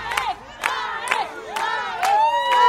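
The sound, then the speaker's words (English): Kindergartners from the Jerusalem YMCA cheer on a runner at the halfway point of the Jerusalem marathon, with high-pitched children's shouts rising in repeated bursts over a steady crowd din. “Kindergartners from the Jerusalem YMCA, who helped Guirges design his flag, cheered him on at the halfway point and then ran alongside Guirges for a couple of blocks.”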